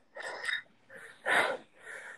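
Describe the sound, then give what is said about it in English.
A voice imitates heavy breathing with four noisy, huffing breaths in an uneven rhythm. The third breath is the loudest and sharpest, and no words are spoken. “I'm just gonna be breathing heavily and not even talk to the cashier”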